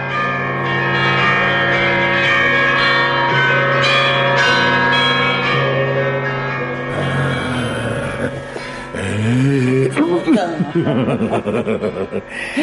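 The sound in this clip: Church bells ring in celebration, several overlapping, sustained strikes pealing in a loud, resonant wash before giving way to laughing and chuckling voices in the last seconds.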